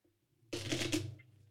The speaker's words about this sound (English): And that wasn't a fart, guys. That was me shuffling.